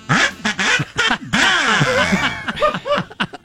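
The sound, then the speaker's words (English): Loud buzzing blasts from a large kazoo, nasal and duck-like, with a wavering, sliding pitch broken into several uneven bursts. “That was a loud kazoo. Yeah. Sounds like an 11-foot duck.”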